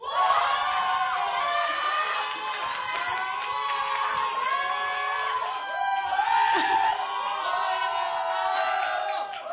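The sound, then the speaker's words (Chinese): A concert crowd cheers and applauds in a dense, continuous roar of many voices. High, excited whoops and screams surge a few times over scattered claps. “呢个时候我哋亦都俾啲掌声啊”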